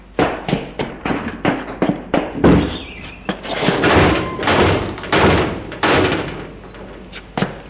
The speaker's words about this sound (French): Des pas et les rideaux de fer qui se montent.